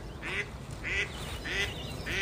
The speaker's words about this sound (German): Schnatternde Enten können manchmal dabei hilfreich sein.